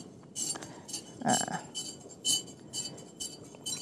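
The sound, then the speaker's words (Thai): A chemical solution being stirred in glassware gives many light, irregular glass clinks and taps, bright and fairly faint over a low background hiss. “นะครับคนไปเรื่อยๆนะครับ อันนี้อาจารย์ก็คนเพื่อให้สารละลายเนาะ”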